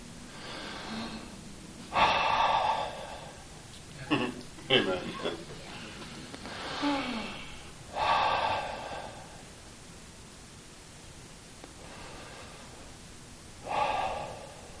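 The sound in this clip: Slow, deep breathing: several long, airy breaths separated by quiet pauses, each swelling and fading gently against a faint background.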